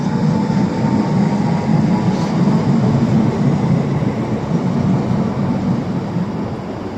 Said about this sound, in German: Jetzt fährt die 11E nach Waren los.